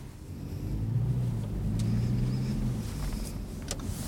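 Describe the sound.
A city bus passing in the street, heard as a steady low engine rumble that holds for a few seconds and eases slightly toward the end, with no talk.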